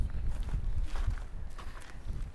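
Footsteps of people walking as they head down to meet someone, a few muffled low thuds at a steady pace over a soft background rumble.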